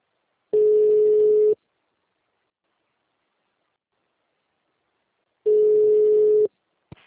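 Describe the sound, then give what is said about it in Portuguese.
Telephone line tone on an unanswered call: two steady one-second tones separated by a long silence, ending with a brief click. “Ai, não tá atendendo.”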